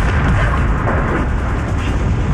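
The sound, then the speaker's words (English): Loud, continuous low rumbling roar of tank cannon fire hitting buildings, a dense, steady wash of sound without separate distinct blasts. “Look out there. There are tanks firing at buildings.”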